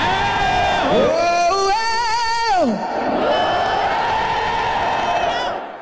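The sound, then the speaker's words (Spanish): A live audience at the T-Mobile Arena cheers and roars continuously. A voice calls out loudly over the crowd early on, and the din eases off in the last moments. “¿Quieres escuchar al público esta noche?”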